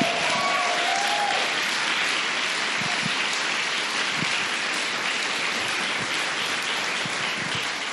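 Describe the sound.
An audience applauds a speaker after a personal story: a dense, steady patter of clapping that stays loud and even throughout, sounding almost like heavy rain, with no voices over it.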